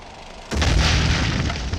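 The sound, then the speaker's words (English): An incendiary charge explodes during a battle after a wall is breached: near-silence, then a sudden loud boom about half a second in, followed by a sustained roaring, crackling rumble. “Catch! It's an incendiary charge!”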